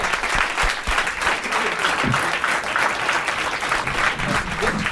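Loud, dense audience applause greets a comedian walking onto the stage at a comedy show. The clapping stays steady and sustained throughout, with no pauses.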